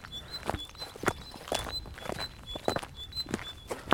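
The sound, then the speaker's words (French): Footsteps of people walking outdoors on a road, a steady series of soft, faint thudding steps at an even walking pace. “On marche sur une route.”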